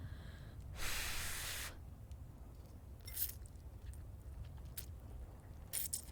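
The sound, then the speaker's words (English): Wet sucking and slurping on pasta noodles, faint and close, with one longer hissy slurp near the start followed by a few short, squishy smacks and clicks spread across the rest. “Oh man, this is so gross. Sucking on pasta. ASMR.”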